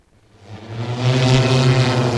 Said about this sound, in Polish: Z taką maksymalną prędkością między szczytami Gorców przemieszczał się dron pasażerski testowany przez goprowców. Urządzenia zasilane są bateriami.